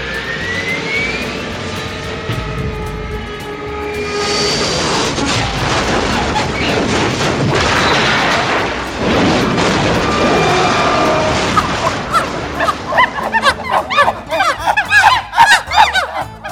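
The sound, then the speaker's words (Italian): Loud, sustained jet-aircraft roar of an airplane crashing into a garden, swelling in after a few seconds of quieter sound and ending in a run of rough, irregular bursts. “Un aereo di scimmie è caduto in giardino.”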